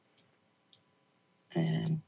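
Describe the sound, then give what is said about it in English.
A deck of cards being shuffled: one short, dense riffling burst of about half a second, preceded by two faint clicks. “Let's go to the cards and see what comes out. Shuffling.”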